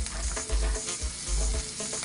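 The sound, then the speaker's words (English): Sauce and oil sizzle and fry in a pan with a dense, steady crackle, broken by a few low thumps from stirring, with no voices. “Add a little bit of oil. It's going to pop this splatter because oil and water don't mix.”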